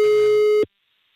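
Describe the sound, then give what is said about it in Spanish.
A steady telephone tone sounds while a call is being dialed: one continuous mid-pitched beep that cuts off abruptly after about half a second, leaving silence. “Ya le estoy marcando, ¿eh?”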